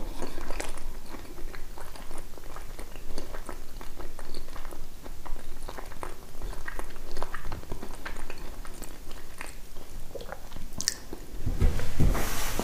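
Close chewing and biting of bread: many soft, crunchy bites and moist chewing sounds in an irregular, continuous pattern, with no talking.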